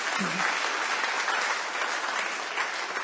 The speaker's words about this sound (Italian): grazie Gesù, facciamo un applauso al Signore, diamogli gloria.